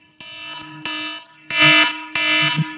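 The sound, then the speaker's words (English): A phone ringing with an alarm-style ringtone: a harsh, buzzing electronic tone in four back-to-back bursts, loud and alone with no talk. “Sound the alarm. Ain't that the most aggravating noise you ever heard?”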